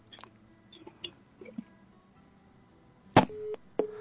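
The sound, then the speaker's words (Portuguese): A telephone call drops on a live radio call-in. Faint scattered clicks come first, then a sharp loud click, a short steady line tone and one more click. No one speaks. “Caiu a ligação. Caiu. É assim mesmo, programa ao vivo, nós temos isso. O programa caiu, a linha caiu”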